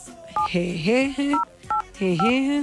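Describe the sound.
Telephone keypad tones as a password is entered: a few short, steady beeps that sit between and alongside a talking voice, each tone brief and evenly pitched.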